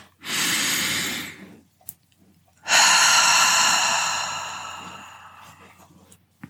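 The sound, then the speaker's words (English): Deep, slow breathing during a guided relaxation: two long airy breaths separated by a short pause, the second one longer, starting loud and gradually fading away. “Let's take that next breath in.”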